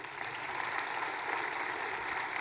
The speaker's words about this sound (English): How many applaud if you were happy to see that calendar work?